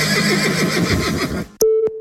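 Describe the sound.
A horse whinnies, linked to a dressage riding championship: a loud, wavering, high neigh lasting about a second and a half that cuts off abruptly, followed by a steady electronic tone and a couple of clicks.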